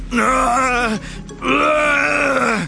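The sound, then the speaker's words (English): Baby-like whimpering of a giant green creature, imitated by a human voice: two long, wavering, moaning wails, the first sliding down in pitch at its end, loud and alone. “The creature opened its long snout and whimpered, like a baby.”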